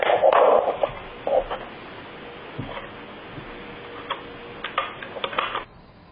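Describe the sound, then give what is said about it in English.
Small vise grip turning a lock plug: sparse, light metallic clicks and ticks, a denser clatter at the start and again near the end, with quiet stretches between them. “we're using a small little vise grip to actually turn the plug”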